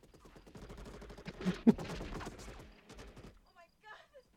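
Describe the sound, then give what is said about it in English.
Rapid machine gun fire in a video game: a dense stream of quick, regular shots for about three seconds, mixed with talking voices, then fading into a few quieter sounds. “reverse Bruce Willis machine gun fire? I've only got infinite bullets.”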